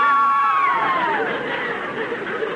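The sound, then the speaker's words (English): A crowd of girls swoons and screams together, with high voiced sighs that glide downward in pitch and then blur into a steady wash of excited voices. “Very nice swooning, girls.”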